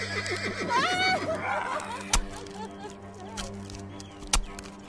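A horse neighs in a long, wavering whinny that fades after about a second and a half, followed by two sharp, loud thumps spaced a couple of seconds apart over a steady low hum.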